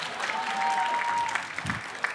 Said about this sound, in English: I wish you would clap or something.